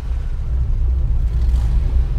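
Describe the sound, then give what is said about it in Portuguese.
A car engine rumbles loudly and steadily, a deep low drone with a rough, fluttering texture and no clear rise in pitch. “Já que sabes conduzir, então agora acelera. Diz lá assim, acelera carro.”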